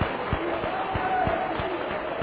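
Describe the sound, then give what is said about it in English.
A church audience claps together in a steady, even beat, with many sharp claps spaced evenly and faint voices underneath. “Let's give the Lord a good hand clap now.”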